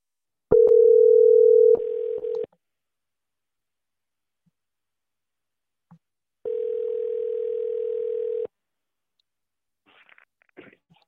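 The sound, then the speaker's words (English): Telephone line tones while a number is dialed: a steady low electronic tone holds for about two seconds, silence follows, then a second matching tone of similar length, with a few faint clicks near the end. “Here we go. I'm dialing.”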